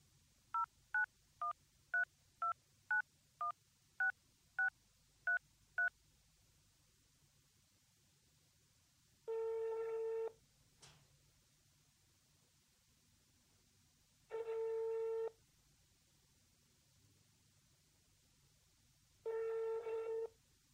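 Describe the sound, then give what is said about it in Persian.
A telephone number is dialed as eleven quick, evenly spaced touch-tone beeps, followed by three long, steady ringing tones with quiet gaps between them, all faint and without talk. “یه زنگ بزن به عباس ببینیم رسیده یا نه. باشد الان میزنم، چرا هول میکنی؟”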